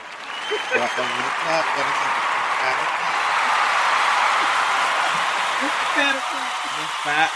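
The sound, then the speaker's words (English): Hands clapping in a steady, dense patter for the whole stretch, with a voice talking over it in places. “Like, I'm going to like do a little clap,”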